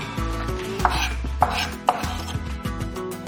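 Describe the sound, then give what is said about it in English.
A knife chops raw onion as finely as possible, giving a fairly quiet run of crisp cuts with a few sharper knocks against the board, no talking. “Add about half a cup of raw onion. Basically, just chop it as fine as you possibly can.”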